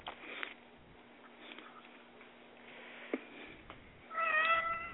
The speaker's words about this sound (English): Is that a baby crying? No, that's a cat.